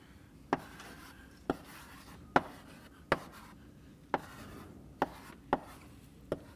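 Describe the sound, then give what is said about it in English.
Sharp taps and scrapes of marker or chalk drawing a tree diagram on a board during a lecture on graphs and minimum spanning trees: a series of about eight crisp knocks spaced roughly a second apart over a low, steady hiss. “I'm going to draw some kind of tree structure here.”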